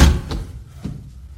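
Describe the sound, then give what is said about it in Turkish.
A door is opened with a loud heavy thud at the start, followed by a softer knock a moment later. “Kapıyı açın çocuklar. Gelin içeri.”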